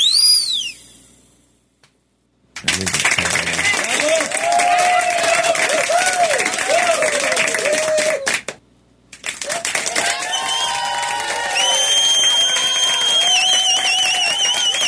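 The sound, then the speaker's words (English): Applause from many hands in two long, dense stretches of steady clapping separated by a brief pause, with high tonal calls rising over the second stretch. “Clap, man. Do we need 4 of them? No. Each one gets a little more excited.”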